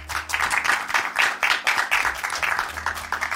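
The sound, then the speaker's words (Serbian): A talk-show studio audience applauds as a guest from the business world is introduced. The claps come in uneven, fairly quiet bursts that swell and ease over a few seconds. “Veliki aplauz.”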